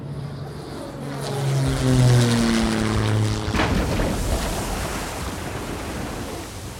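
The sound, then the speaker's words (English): An airplane emergency landing sound effect: a low engine drone swells in a rushing roar, then gives way to a broad, steady whoosh of noise. “Oh, and enjoy the emergency landing.”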